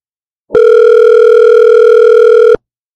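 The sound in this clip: A telephone sounds for an incoming call: a single loud, steady electronic tone that holds for about two seconds, then cuts off into silence.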